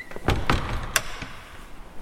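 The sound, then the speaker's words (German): A door is closed from outside, heard as a few short knocks and clicks with one sharp click standing out, followed by a faint settling thud. “Mach die Tür zu. Aber... Mach die Tür zu. Mach die Tür zu. Ja, Herr. Nein, von außen.”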